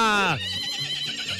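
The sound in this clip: A mare on a farm gives a loud whinny that slides downward in pitch over about half a second, then trails off into a lower, fluttering and wavering tail.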